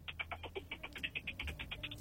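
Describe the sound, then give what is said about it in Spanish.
Faint, rapid run of many short, high electronic beeps as a telephone call is redialed, each tone brief and evenly spaced, holding a steady pitch throughout. “Vamos a recuperar la llamada con el director del Instituto Estatal de Protección Civil. Estamos teniendo un poco de problemas con la comunicación”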